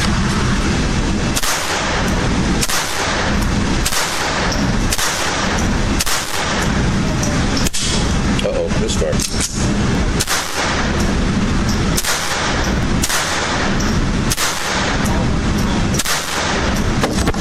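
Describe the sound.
Gunshots at an outdoor shooting range: many loud, sharp reports fire in a steady, roughly regular rhythm, about one per second, over a constant background of noise with no talk.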